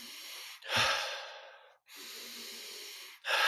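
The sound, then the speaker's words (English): Slow, controlled breathwork: two long, airy breaths followed by the start of a third, each a soft whooshing inhale or exhale with short pauses between, as the breathing gradually slows. No one speaks. “and then just start slowing it down. And then the inhale gets a little bit lighter, exhale gets a little bit longer.”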